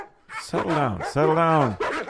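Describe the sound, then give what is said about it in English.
A dog gives a few loud, drawn-out whining barks and yowls with a ringing tonal quality, separated by short pauses. “Who let the dogs in? Not out. In. Yeah, the dogs.”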